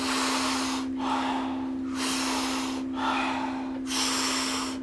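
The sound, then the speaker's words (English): Soft, rhythmic breathing exhales, a steady series of airy, hissing breaths of about a second each with brief pauses between them, over a constant low hum. “Soft exhale. We do it rhythmically. We do it together. It sounds like this.”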